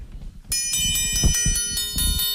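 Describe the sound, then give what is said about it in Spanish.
Bright metallic ringing from a tempered steel rod instrument forged in Piedrabuena, struck with a beater to keep the rhythm of a traditional mayo song. Many quick, regular strikes build into a sustained, shimmering high tone. “Esa vara de acero templado es un instrumento bastante nuestro, que antiguamente lo hacían las fraguas de aquí de Piedrabuena y que todavía las mantenemos. A ver cómo suena eso.”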